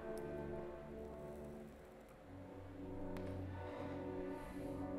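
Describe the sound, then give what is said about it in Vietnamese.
Rain starts pouring on a village road amid gusts of wind, a steady dense hiss that holds throughout over a low sustained tonal drone. “Chợt một luồng gió mang nước lạnh đập vào mặt khiến anh rùng mình. Trời bắt đầu đổ mưa.”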